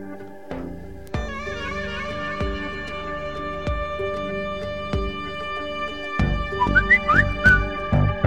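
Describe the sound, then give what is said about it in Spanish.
Whistling played from the control room: warbling, high whistled notes over steady tonal backing marked by a few sharp accents, growing louder and busier toward the end, with no talk. “La verdad es que flipo con el silbadito ahora.”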